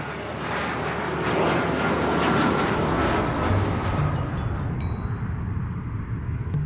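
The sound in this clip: An arriving airplane's engines give a loud, steady roar with a faint high whine running through it, swelling slightly partway and easing near the end.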